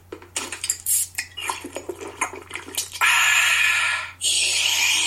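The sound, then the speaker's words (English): A can of Coca-Cola being opened and poured: a series of light metallic clicks and clinks, then a loud, steady fizzing pour that briefly dips and resumes. “That wasn't sound effects. That was a Coke.”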